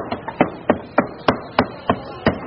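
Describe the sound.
Pork pounded at a meat stall in Guadalupe Market, Makati City, Metro Manila: nine sharp, heavy thuds of a blunt tool striking meat in a steady rhythm.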